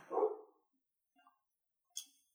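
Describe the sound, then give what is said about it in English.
A dog barking in a recording studio: one fuller, low bark at the start, followed by a fainter brief sound and then a short, sharp high yip, all quiet and separated by silence. “That is a special guest, if you can hear the barking.”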